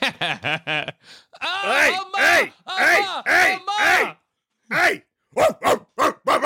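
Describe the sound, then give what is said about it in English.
A dog known as the swearing dog barking and yowling, with a few short quick barks at first, then longer, drawn-out, speech-like howling calls separated by brief pauses. “That's the swearing dog.”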